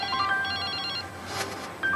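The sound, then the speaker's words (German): A telephone rings with a few bright electronic ringtone bursts, one ending as another starts after a brief gap. “Aber jetzt kommt da dieser Anruf von Wolfgang Niersbach”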